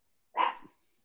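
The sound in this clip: A pet dog gives a single sharp bark, reasonably loud against silence, with a short raspy tail trailing off after it.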